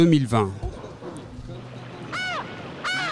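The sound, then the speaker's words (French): Seagulls cry in the harbour of Le Havre, two harsh, arching calls near the end over a steady low ambient hum, after a voice speaks briefly at the start. “Vous entendez l'ambiance du Havre, hein ? Les mouettes.”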